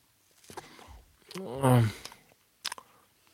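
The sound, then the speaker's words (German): Biting into and chewing a tough food that looks like an old shoe sole: soft crunchy clicks surround a voiced murmur in the middle, then a sharp pair of clicks near the end. “Das sieht aus wie so eine alte Schuhsohle. Na gut, da beiße ich mal rein.”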